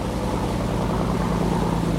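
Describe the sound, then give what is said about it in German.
An inflatable motorboat's outboard engine drones as it speeds across the sea on a natural park patrol. The drone is steady and moderately loud, with a regular low throbbing pulse and no voices. “Und nochmal geht's mit dem Schlauchboot schnell weiter übers Meer.”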